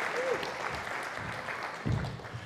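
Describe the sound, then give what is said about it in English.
Audience applause after a group is invited to take a round of applause: steady, fairly faint clapping from many hands continuing throughout without a break. “Round of applause for these guys.”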